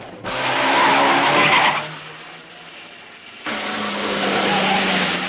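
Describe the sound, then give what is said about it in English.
Tires skid and an engine roars as a van races through Milan streets in a car chase, with a green Mercedes in pursuit. Two long, loud skidding bursts are split by a quieter stretch. “The van skids through Milan streets. The green Mercedes is in hot pursuit.”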